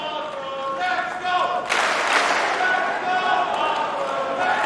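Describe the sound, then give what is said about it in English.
A fight crowd chants a fighter's name in loud, rhythmic unison, with a burst of cheering and clapping partway through. Spectator noise continues underneath. “The crowd is chanting Fili's name. The audience is encouraging him, pumping up his energy.”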